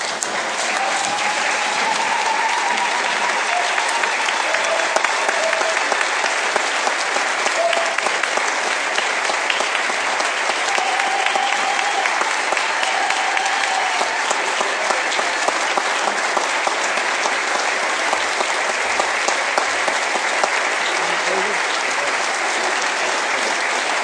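Sustained audience applause welcomes tribal Chairman Harold Frazier before his State of the Tribes address, loud, dense clapping holding steady throughout.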